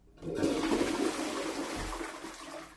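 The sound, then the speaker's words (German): A toilet flush starts abruptly as a rushing, hissing surge of water that roars steadily for a couple of seconds and then begins to ease slightly, heard alone. “ist die Klospülung.”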